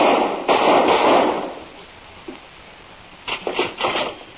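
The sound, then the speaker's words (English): A gunshot fired at a doctor cracks out loudly near the start and trails into a noisy decay, followed after a quiet stretch by a few quicker, rougher bursts. “I just shot Dr. Scars.”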